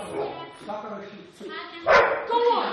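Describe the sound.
Dog barking and yipping in a few short, sharp bursts, mixed in with people talking loudly around it.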